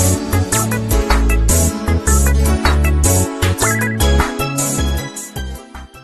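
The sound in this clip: Theme music from the Sonic Adventure video game's Speed Highway stage plays: a loud, dense track with a steady driving beat, heavy bass and bright layered synth lines running continuously without voices.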